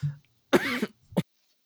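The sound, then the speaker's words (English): Coughing from someone who has just choked on something: two sharp, rough bursts, the first longer and partly voiced, the second short and abrupt, separated by a brief pause. “Sorry, I choked on something.”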